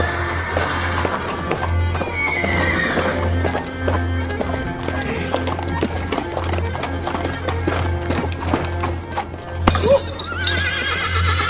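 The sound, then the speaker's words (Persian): A ridden horse clip-clopping at a steady, even rhythm throughout, its hoofbeats broken by loud, high neighing. “نغمه سوار اسبه.”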